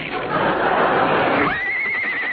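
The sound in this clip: A horse neighing, heard as a loud, rough whinny that gives way to a thin, sustained high tone.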